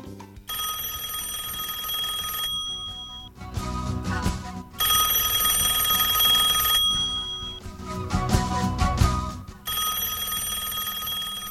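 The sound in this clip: A telephone rings with an incoming call in three long bursts of steady electronic tones. Noisier gaps with no ringing separate the bursts, and the ringing stays at a moderate level with no voices.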